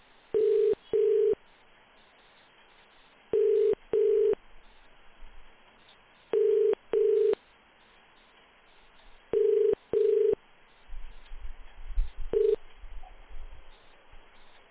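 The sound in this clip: A telephone call is being placed: a steady ringing tone sounds in paired bursts, four double rings spaced evenly, then a fifth cut short as a low rumbling noise takes over.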